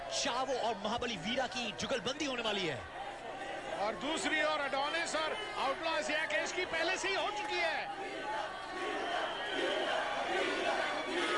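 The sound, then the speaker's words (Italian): A wrestling arena crowd cheers during a tag match with Chavo Guerrero and Vira, a continuous roar of many voices with scattered loud shouts and yells rising above it. “Senti il pubblico come me, senti il pubblico come ti fa Vira.”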